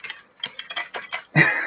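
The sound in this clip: Typing on a computer keyboard gives a quick, uneven run of several light key clicks. It ends in a louder, longer burst of clattering noise.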